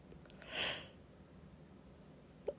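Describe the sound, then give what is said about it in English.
One big, breathy yawn: a soft airy exhale that swells and fades over about half a second, faint and alone against a quiet background. “I say as I take a big yawn.”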